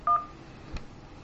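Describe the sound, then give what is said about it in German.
A single short telephone keypad tone from pressing 1 in a phone menu: a brief, clean, steady dual-pitched beep, followed by a faint soft click. “Für Deutsch drücken Sie die 1.”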